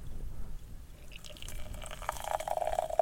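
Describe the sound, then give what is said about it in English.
Boiling water running from the tap of a wood-fired samovar into a teapot holding loose tea, a faint steady trickle that grows slightly louder toward the end. “I've already put the tea in the teapot, just loose tea here. We're going to fill the teapot up from the tap”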